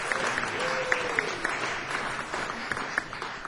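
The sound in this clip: Applause from an audience welcoming a guest musician to the stage: steady, dense clapping that holds an even level throughout, with a few sharper claps standing out.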